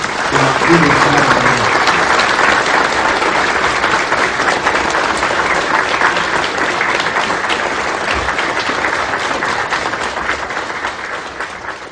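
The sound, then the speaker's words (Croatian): Loud, dense applause from a church audience welcoming Metropolitan Joanikije of Montenegro and the Littoral. It holds steady and sustained throughout, with a voice briefly audible under it at the start. “a njega pozdravite i velikim aplauzom zato što je došao.”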